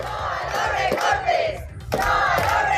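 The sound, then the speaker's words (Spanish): A protest crowd chants and shouts outside the Carucedo rural grouped school over the loss of a support teacher. Loud rhythmic massed voices drop briefly, then surge back. “Concentración de protesta también ante el Colegio Rural Agrupado de Carucedo.”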